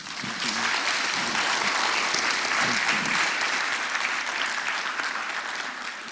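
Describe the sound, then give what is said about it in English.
Applause from an audience in a church welcoming a speaker: many hands clapping in a dense, sustained roar that swells in quickly and then holds steady for about six seconds. “And so as we welcome Paul, let's just give him a hand.”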